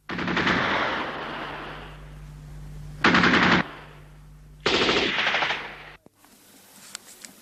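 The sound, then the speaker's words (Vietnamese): Machine-gun fire far off in wartime Hanoi, with French reconnaissance planes circling: a long rattling burst, then two shorter sharp bursts, followed by quiet with a few faint cracks. “Thỉnh thoảng có tiếng súng máy ở xa vọng lại.”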